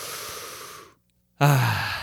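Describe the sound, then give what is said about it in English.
A deep breath drawn in during a guided breathwork exercise. Soft, breathy airflow noise is broken by a short silent pause, and the second stretch is stronger with a slight voiced edge. “Make it clear. Really see that vision. And good. Big breath in.”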